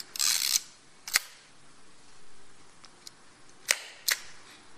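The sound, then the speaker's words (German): The mechanical shutter of a Pentacon Exa 1B 35 mm camera set to bulb mode gives a few sharp, dry clicks separated by pauses, with a brief burst of rustling handling noise at the start and faint ticks in between. “Das ist eine Pentacon Exa 1B, jetzt im Bulb-Modus.”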